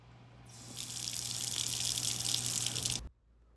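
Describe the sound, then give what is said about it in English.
Water runs from a kitchen tap while hands are washed, a steady hissing rush that starts after a brief lead-in, holds evenly, then cuts off sharply near the end. “Baby, please. Please, just let me wash my hands off at least.”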